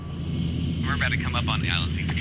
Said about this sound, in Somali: V O A-da ayaa la siiyey fursad ay kula duusho wadayaasha dayuuradda HC-144.